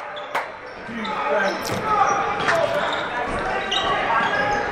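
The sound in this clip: A basketball dribbled on the court during a game, a few sharp bounces under lively crowd noise with a commentator talking throughout.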